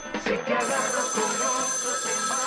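A telephone rings for an incoming call, its electronic ringtone sounding continuously and fairly loud throughout, with a dense, bright, repeating tonal pattern.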